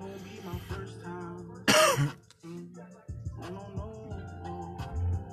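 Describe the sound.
A man coughing and clearing his throat as if choking, one harsh, loud burst in the middle, surrounded by low throaty murmuring and rasping.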